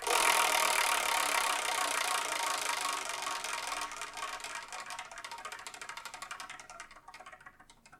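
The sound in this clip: A prize wheel spun to pick which manga gets reviewed gives off rapid rattling ticks that gradually spread apart and slow across eight seconds, fading toward the end with no talk.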